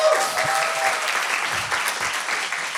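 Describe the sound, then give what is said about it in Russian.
A church audience applauds its volunteer servers. The clapping is dense and lively and stays steady for the whole three seconds. “Давайте похлопаем этим людям Божьим.”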